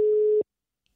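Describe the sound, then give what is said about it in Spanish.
A single steady telephone tone sounds while a call is being placed, one clear mid-pitched beep of under half a second, loud and alone, then cut off into silence. “De hecho, le estoy llamando ya”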